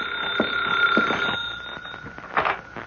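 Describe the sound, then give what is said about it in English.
Office telephone bell ringing in steady repeated bursts, a bright sustained ring with a clear tonal line, fairly loud and alone without talk. “That's the phone ringing in your office”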